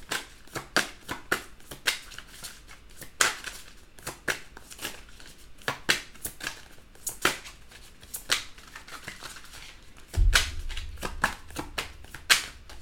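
Playing cards shuffled for a zodiac reading before one is drawn for Pisces: many crisp, papery riffles and flicks in irregular bursts, with a brief low handling thump near the end and no voices.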